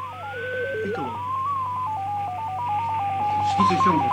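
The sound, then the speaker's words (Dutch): Piccolo radio transmitter signal tones from a multi-tone system used in England: a steady sequence of short, pure tones stepping between pitches, with a brief glide at the start, over a low constant hum. “U hoort hier een piccolo-systeem, wat zover wij weten in gebruik is, veel gebruik van wordt gemaakt in Engeland.”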